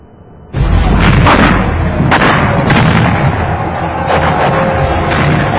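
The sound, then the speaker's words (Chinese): Western cannons fire in an artillery battle, with shells exploding during the siege of Ningyuan. A loud, dense roar of booming blasts and bursts starts suddenly and carries on without a break. “袁崇焕命部下发西洋大炮还击，雨点般的炮弹落地开花，后金兵被打得人仰马翻”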